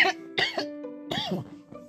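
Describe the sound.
A person clears their throat with harsh coughs: a few rough, partly voiced bursts in quick succession over about two seconds, fairly loud.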